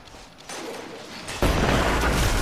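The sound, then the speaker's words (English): Grenade explosion in Destiny 2: a sudden broad roar rises partway through and stays loud and dense to the end, after a softer stretch of rumbling noise. “Throw a grenade. I'm gonna throw a grenade.”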